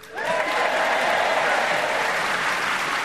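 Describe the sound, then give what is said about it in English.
Enthusiastic theatre audience in Guildford, Surrey, applauding at the start of a comedy panel show. The dense, even wash of clapping swells within a fraction of a second and holds loud and steady, with no voices. “And as you can hear, we have an enthusiastic theatre audience drawn from many areas of the fine county of Surrey who've come on to show their enthusiasm as we start the show with Paul Merton.”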